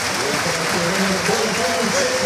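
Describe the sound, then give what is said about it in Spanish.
A football stadium crowd stands and applauds a player, a broad, continuous roar of clapping that holds steady throughout, with a man's voice talking over it. “aplauso de Castalia. Castalia se pone de pie para aplaudir a Ronaldo Pompeu.”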